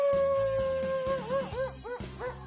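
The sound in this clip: A wolf howls in one long, sustained high note that then wavers and breaks into shorter rising and falling yelps, over a low, pulsing rumble.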